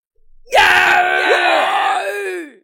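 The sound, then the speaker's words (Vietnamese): Anguished screaming from wounded old men struck by a scalding rain of blood, used as an audiobook sound effect: a loud, drawn-out howl of several voices whose pitch wavers and then sinks away at the end. “Tiếng kêu thảm thiết liên miên không dứt”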